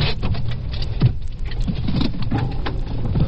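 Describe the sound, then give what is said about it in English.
A police car pulls up in front of a house on a disturbance call, its low engine rumble running continuously beneath a crackling, pattering noise, with no talk. “Unit is just coming around the corner. Pulled up in front of the address.”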